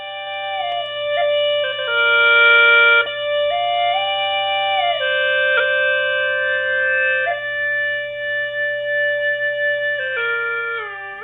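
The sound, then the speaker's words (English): Hulusi gourd flute from Yunnan playing a smooth, reedy melody over a steady sustained drone, giving a full, ensemble-like sound; the tones glide between held notes continuously without any talk. “a musician of one Hulusi can produce the music of a small ensemble due to the structure of the instrument, which sounds like this.”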